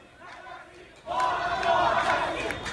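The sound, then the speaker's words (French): A crowd chants slogans at a protest demonstration. It starts faint, then bursts loudly into a dense chorus of voices about a second in and holds it to the end. “Là, on entend en fait des sons de manifestation de la semaine dernière. On vient d'entendre un slogan qui dit « mort au dictateur ».”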